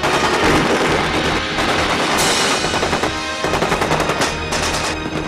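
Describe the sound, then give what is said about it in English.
Heavy gunfire rings out, with sustained machine-gun bursts and many shots crowding together into a loud, continuous barrage of sharp cracks throughout. “I think there's just a lot of shooting after that.”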